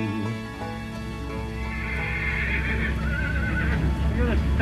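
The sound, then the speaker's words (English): Horse whinnies at a country horse fair, a wavering, high neigh rising out of a steady, busy background with hoof clip-clops. “It's a decent pony, though, that. I'll take 36 quid for it.”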